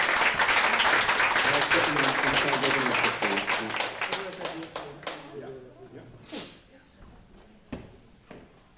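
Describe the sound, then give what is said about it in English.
Applause from a conference audience greeting a keynote speaker. Dense clapping fills the first half, then thins to scattered claps and fades out toward the end. “Give a warm applause”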